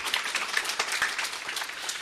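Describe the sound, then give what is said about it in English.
An audience at a poetry reading claps for the sign-language interpreters: a full, even spread of applause with a few sharper individual claps standing out from the crowded patter. “We should clap for them. Can we do that?”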